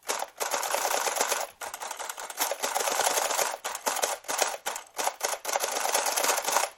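An old Art Deco printing machine, built like a typewriter, prints with rapid runs of sharp mechanical clacks. The runs are broken by short pauses and keep an uneven, stuttering rhythm, much like a slow electric typewriter.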